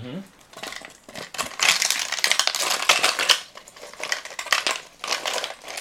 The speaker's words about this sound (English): Well, we're gonna do ice first. Yeah, ice first. All right. So you're muddled. You add ice to the top.